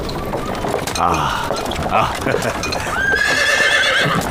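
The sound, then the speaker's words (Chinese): A horse-drawn carriage arrives with hooves clip-clopping and wheels clattering, then the horse gives a loud whinny near the end. “马车拉来了。”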